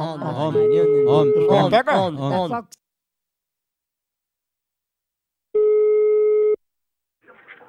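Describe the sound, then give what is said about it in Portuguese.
A single steady telephone ringing tone, about a second long, sounds while a call is being placed. Talk comes before it, then a pause of silence, and another voice starts just after the tone. “Eu vou ligar pra Ciene. Liga lá. Vou ligar lá”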